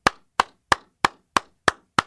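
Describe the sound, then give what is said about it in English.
One person slowly clapping their hands: seven sharp, evenly spaced claps about a third of a second apart, each crisp and equally loud, with silence between. “We're going to have two more hours of just me clapping.”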